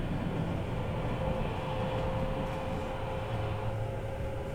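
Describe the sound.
Steady, loud rumble and rattle of a commuter train running on a line with semi-express service to Kawagoe, with a sustained motor hum throughout and no breaks.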